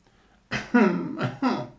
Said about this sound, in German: sagte die Rakete, und sie begann zu husten.